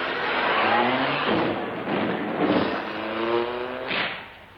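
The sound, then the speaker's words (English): A taxi engine revs and pulls away in a few surges of whining motor tone that rise in pitch and then fade. “Taxi, drive me to the House of Lords.”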